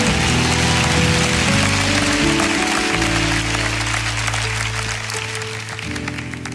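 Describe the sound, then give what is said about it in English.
Church audience applauding a speaker during a televised service, a dense, sustained wave of clapping over held musical chords, easing slightly toward the end. “Come on, let's give him a hand.”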